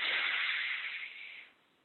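A long, deep inhalation during a guided breathing exercise: a faint, smooth, airy hiss that holds steady for about a second and a half, then fades out.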